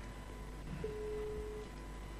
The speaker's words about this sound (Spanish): A ver, voy a hacer una llamada.